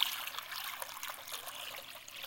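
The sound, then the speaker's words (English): Water poured into a basin, a soft continuous trickling splash that stays faint and even from start to finish, with no voices. “he takes the water and he pours it into the basin”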